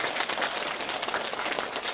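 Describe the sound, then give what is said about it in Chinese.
Applause from an audience after a speaker's point: a dense, even patter of many hands clapping, fairly faint and steady for two seconds with no voices. “鼓掌。”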